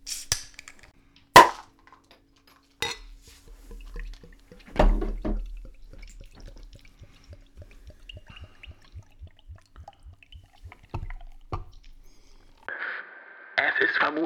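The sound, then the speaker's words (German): A bottle of vegan elderberry spritzer is opened: sharp clicks and a louder pop, then a long run of evenly spaced faint ticks, with a brief hiss near the end. “Sollen wir, sollen wir unsere vegane Holunderbeerschorle aufmachen? Das können wir gerne tun. Sollen wir das mal eben machen? Machen wir.”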